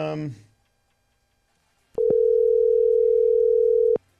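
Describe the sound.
A voicemail recording tone: one steady, unwavering beep at a single pitch holds for about two seconds, following a brief burst of voice at the start and a stretch of silence.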